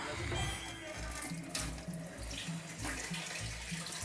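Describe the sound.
Water runs from a tap in a steady, faint rush with a soft low pulsing underneath, continuous from start to end.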